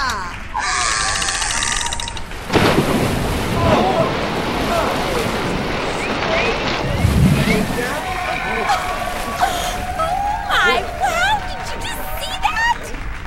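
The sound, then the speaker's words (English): A heavy splash as an orca is dropped into a big empty tank in front of a studio audience, followed by ongoing sloshing water, with voices talking over it. “did they just drop that orca into that big empty tank?”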